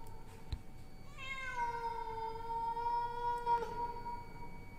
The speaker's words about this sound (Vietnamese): thì tự nhiên con mèo nó lại kêu lên.